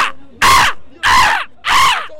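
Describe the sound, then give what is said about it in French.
A person imitating a seagull's cry during the carnival in Dunkirk: three loud, drawn-out squawking calls with short gaps between them, each rising and then falling away. “Vous avez fait le cri de la mouette ce midi?”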